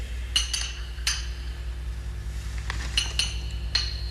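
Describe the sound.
Glass bottles clink in a poison cabinet as someone searches for one particular bottle. Several sharp, bright clinks come in small clusters with pauses between them, over a steady low hum.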